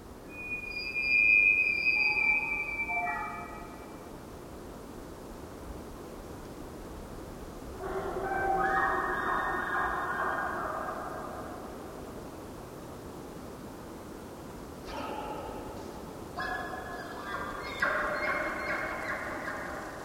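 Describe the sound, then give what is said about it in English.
An elk call carries from miles away through a landscape with cathedral-like acoustics, turning into faint, pure, flute-like whistled tones near the start, followed later by softer, hazy bursts over a steady low hiss. “When you hear an elk call from miles away, it turns into a magic flute as the result of traveling through this place that has the same acoustics as a cathedral.”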